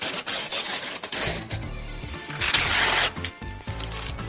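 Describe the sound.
Mail is ripped up as a sound effect, a run of rough, rasping paper tears with a loud, dense burst in the middle and scattered shorter rips around it.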